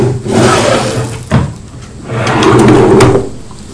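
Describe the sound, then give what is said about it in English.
Drawers being pulled open and pushed shut at home. Two loud sliding scrapes each end in a sharp knock, with no talk. “You mustn't keep opening and shutting the drawers,”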